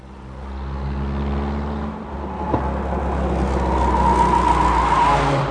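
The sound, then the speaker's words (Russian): A car pulls smoothly away and picks up speed. Its steady engine hum slowly grows louder and fuller as it accelerates, with no talking. “Буревестник плавно взял с места и быстро набирал скорость.”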